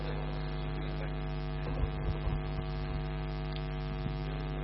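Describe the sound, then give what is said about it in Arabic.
Steady electric hum of an electric fan running, a low tonal drone with a constant level throughout, plus a few faint soft bumps partway through and no voices. “شغل المروحة.”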